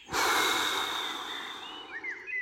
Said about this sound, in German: Atme ein und aus.